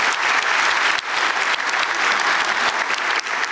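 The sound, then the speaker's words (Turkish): Audience applause at a football club's meeting, given in thanks for land won for the club. Loud, sustained clapping runs throughout, with brief dips near one second and again just past three seconds. “Alkışlarınız biraz daha kuvvetli olsun, çok önemli.”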